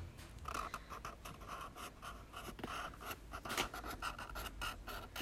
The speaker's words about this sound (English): I was drawing on my stickers.